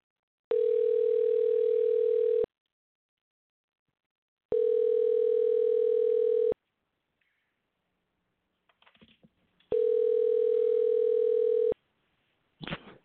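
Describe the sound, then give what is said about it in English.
Telephone ringing tone on a call to an interview guest, three steady, buzzy two-second tones separated by equal pauses, with a few faint clicks before the third tone and a brief noise at the end. “All right, let's get Angelo on the line. Bear with me here a second while we dial him up, and we'll get this interview going in a minute.”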